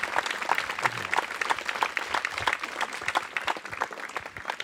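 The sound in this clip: An audience gives dense, steady applause to welcome two guests onto the podium at an evening talk event. Many hands clap continuously, with no break through the whole stretch.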